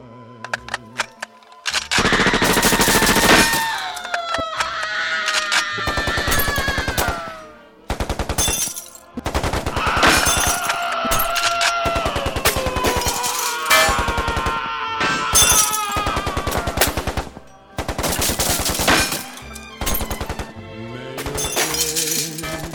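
Gunfire during a Christmas family dinner scene: loud, repeated bursts of rapid automatic fire break out again and again, mixed with shattering crashes and tonal sounds between the bursts.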